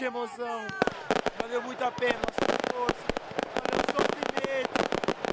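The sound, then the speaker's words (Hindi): Fireworks set off in celebration in Brasília after an impeachment decision: many sharp, rapid pops and bangs crackle loudly throughout, with voices over them. “महाभियोग चलाए जाने के पक्ष में जब फैसला आया तो ब्रासिलिया में लोगों ने आतिशबाजी की और इसे जश्न की तरह मनाया।”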